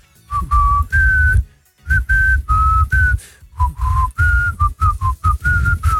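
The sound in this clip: Someone whistles a pop song melody in many short, clear, mid-high notes grouped into phrases with brief pauses between them.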